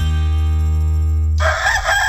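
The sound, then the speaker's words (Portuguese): A rooster crows in one drawn-out, steady, strongly harmonic call that breaks into a loud, noisy, raspy burst near its end, with no talk over it. “Quando o galo canta”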